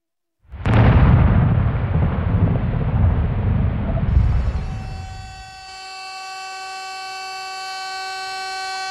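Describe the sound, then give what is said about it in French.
A nuclear reactor explosion, reactor number 4 at a power plant, bursts in with a sudden loud boom. A heavy roar rumbles for several seconds, fades, and gives way to steady high ringing tones. “Le 26 avril 1986, 1h23, le réacteur numéro 4 de la centrale de Tchernobyl explose.”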